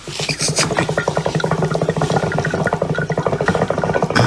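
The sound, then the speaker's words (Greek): A hookah water pipe bubbles steadily: loud, rapid gurgling pulses in a fast, even rhythm that continue without pause, with no talking. “Ο ήχος είναι από εμάς, ήταν αυτός ο ήχος? Ναι, ο ήχος αυτός είναι από Αργιλέ.”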